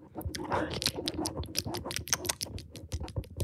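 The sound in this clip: Crisp chip chewing for ASMR: many small, quiet crunches and crackles in an irregular, busy rhythm.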